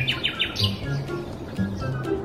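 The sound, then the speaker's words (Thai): A flock of birds chirping: a quick run of sharp, high chirps at the start, followed by scattered, fainter calls over a low, steady background murmur. “ประเดี๋ยวเดียว ก็ได้มีนกทั้งฝูงบินมาพร้อมกัน”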